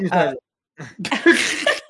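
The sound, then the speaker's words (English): A rough cough from something caught in the throat: a brief voiced sound, a short pause, then a few harsh, noisy bursts of coughing and throat-clearing. “I'm sorry, I was just had something in my throat.”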